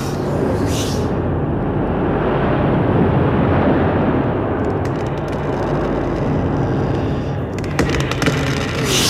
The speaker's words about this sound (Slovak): Nedokážem to, ten vietor!